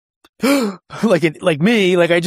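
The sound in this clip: A voice imitates forced box breathing during an instrument landing approach to minimums: a loud, strained, sighing breath, then a longer groaning one that wavers in pitch.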